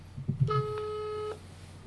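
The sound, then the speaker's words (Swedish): A phone call is placed and one steady ringback tone sounds for under a second after a short burst of low rumbling noise, then the line falls quiet. “Så vi tar väl helt enkelt och slår Agge, eller August då, en pling.”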